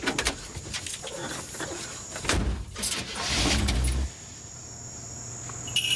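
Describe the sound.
Car engine running at a gas station as someone hurries into the car, a low rumble swelling and then settling into a steady hum, with high insect-like chirping in the background.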